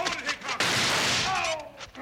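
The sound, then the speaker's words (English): A gunshot in a western gunfight bursts out as one sudden, loud blast with a rough, lingering roar. Voices talk before and after it. “Looks like I creased his scalp when I knocked his hat off. Yeah, that's right. Where'd you learn to shoot like that anyhow?”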